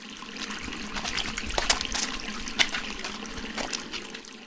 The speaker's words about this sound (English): Wash your hands and you can help me prepare.